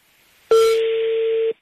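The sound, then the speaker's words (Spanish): A telephone tone sounds during dialing: one steady, clear tone that starts abruptly, holds for about a second at an even level, then cuts off, with silence before and after. “Estoy marcando.”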